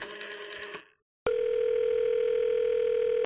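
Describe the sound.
Telephone dial tone heard while phoning a bakery about a late pizza order: a steady, loud, continuous tone that begins after a brief burst of noisy sound and a short silence, then holds unchanged to the end.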